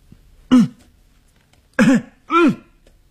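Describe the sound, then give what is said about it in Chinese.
A man coughs loudly three times on a stairway, one harsh throat-clearing burst followed after a pause by two in quick succession, with near silence between them. “他咬着牙走过去，他大声地咳嗽。”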